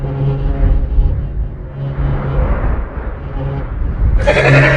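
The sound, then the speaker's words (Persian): A distressed horse makes loud, drawn-out cries with a strained, buzzing quality that carry on throughout, ending in a brighter, harsher burst. “آروم باش اسب خوب، این کارو نکن. آروم باش.”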